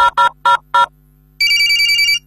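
A telephone rings during a live radio call-in as a mobile number is dialled: a few short, bright electronic tones come first, followed by a steady, high ringing tone that holds for almost a second.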